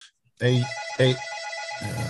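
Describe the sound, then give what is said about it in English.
A telephone rings in short, repeated tonal bursts, each ring bright and clear, with brief pauses between them. “a phone rings.”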